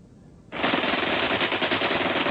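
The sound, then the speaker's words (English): Rifle and machine gun fire pours down on troops packed in a narrow mountain pass, beginning as a sudden loud burst of rapid, rattling shots that continues unbroken to the end. “Rifle and machine gun fire rained on them from above and to their front.”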